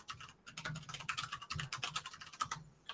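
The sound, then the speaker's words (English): Typing on a computer keyboard: rapid, continuous clicking keystrokes, many in quick succession at a fairly steady pace, with no speech over them. “Okay, let me get on. Now I gotta type.”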